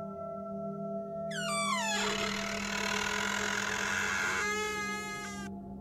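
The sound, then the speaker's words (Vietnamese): An old wooden door of a village communal hall creaks open at night: a long, strained creak whose pitch first slides downward, then holds, and ends in a higher squeal, all over a low steady drone. “Trong đêm, tiếng cánh cửa gỗ đã cũ lâu năm rít lên kèn kẹt.”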